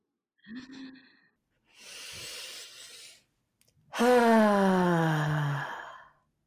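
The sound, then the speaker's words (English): A big deep breath taken at the close of a breathing exercise: a breathy inhale, then a long, loud, voiced sighing exhale whose pitch falls steadily toward the end. “we just like to invite you to take the biggest breath you've taken all day.”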